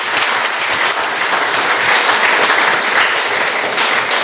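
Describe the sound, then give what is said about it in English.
Church audience clapping in praise during a worship service: loud, dense and sustained applause with no break, a steady roar of many hands throughout. “Let's give a clap for him.”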